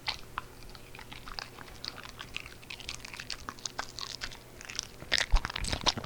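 A carrot is chewed with many crisp, irregular crunches, fairly faint at first and growing louder and denser near the end.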